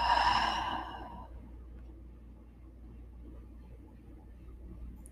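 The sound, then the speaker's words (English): One deep breath out through the mouth during a guided breathing exercise. A breathy rush fades within about a second, and a quiet low hum remains. “One more time, deep breath in. Deep breath out.”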